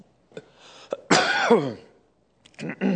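Coughing and throat clearing from someone who has just swallowed a bug: a few short hacks surround one long, strained, rasping clearing of the throat, with no talking.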